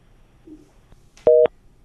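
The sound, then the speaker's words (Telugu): A telephone tone sounds after a caller's line drops. It is a single short, loud, steady dual-pitched beep lasting a fraction of a second, preceded by near silence. “అయ్యయ్యో పాపం cut అయిపోయింది.”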